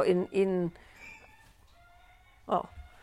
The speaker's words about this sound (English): This is called an egg squawk, by the way, if you've never heard this. Yeah. The chickens lay an egg, and then they go somewhere else, and they make the sound,